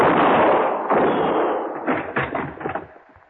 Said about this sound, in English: Well, I can see the flash of your gun.